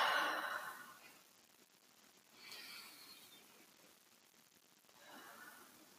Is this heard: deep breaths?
yes

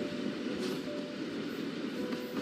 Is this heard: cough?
no

